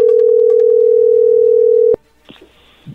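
A telephone dial tone, steady and loud, hums at one even pitch for nearly two seconds while a call is being placed, then cuts off sharply with a click. A few faint, brief sounds follow.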